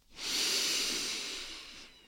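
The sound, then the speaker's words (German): One long, steady inhale through the nose during a yoga breathing practice, a soft airy hiss that swells quickly and fades gently, heard alone without talk. “Atme noch einmal über die Nase ein”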